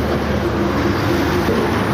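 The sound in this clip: Steady roar of passing road traffic beside a roadside plant nursery, a dense, unbroken rumble and hiss that holds at an even loudness throughout, with no distinct single vehicle standing out and no talk.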